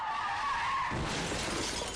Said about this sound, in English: Racing to get home may get you there a bit quicker, but it comes at a cost. It's going to take you longer to stop.